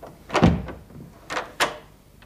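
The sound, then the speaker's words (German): A door swinging open, marked by one soft, low thud followed by two lighter knocks, all faint and with no talk. “Als die Tür aufging”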